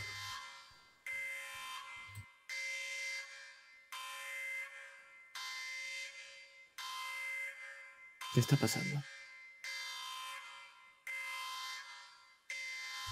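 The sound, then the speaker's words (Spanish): A spaceship alarm blares as a harsh electronic buzzing tone, repeating in many long, even pulses at about one per second and loud throughout, with a brief noisy burst partway through. “La alarma de la nave te saca de tu ensoñación.”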